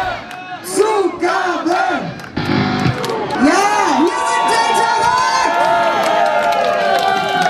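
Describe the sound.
A crowd cheers and shouts at the end of a rock band's live gig. Whoops and yells from many voices rise and fall, then merge into a loud sustained roar.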